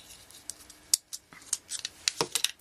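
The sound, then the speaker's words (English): Scissors snip through a length of bracelet thread in several short, crisp clicks at an uneven pace, quiet and with no talking. “we're going to pick up another thread about the size of your bracelet, a little longer than the size of your bracelet. We're going to cut that off.”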